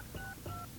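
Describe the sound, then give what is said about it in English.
Telephone keypad tones from dialing a toll-free number on a live phone line: two short, clear dual-pitch beeps in quick succession over a steady line hiss, with no talk. “Now, can we dial? I think we can dial. Okay, this is going to work.”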